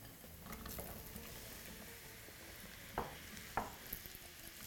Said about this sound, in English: I'm gonna saute these mushrooms for about 3 to 4 minutes, just until they start to get nice and soft.